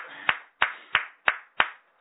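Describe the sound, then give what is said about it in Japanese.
Five sharp, evenly spaced hand claps in a steady rhythm from a gathering celebrating a teacher's 48th birthday at an academy. Each clap is crisp and loud, with a brief decaying tail, and no voices are heard. “今日は佐々木智弘先生が満48歳を迎えられましたので、盛大な拍手でお祝いします。”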